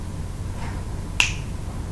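A single crisp finger snap cracks sharply once near the middle, standing alone over a low, steady background hum.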